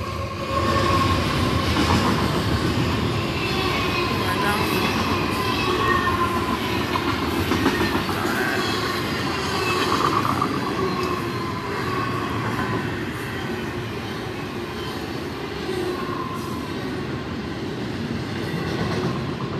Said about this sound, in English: They're just sitting while the state creates audible activity with the train.